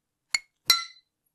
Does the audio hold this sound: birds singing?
no